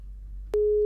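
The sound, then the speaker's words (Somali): A telephone busy tone sounds after a call line drops: a steady, pure mid-pitched tone cuts in abruptly over a faint low hum and holds unbroken to the end. “Waxaa kasna qadka telefoonka ayaa ka go'ay.”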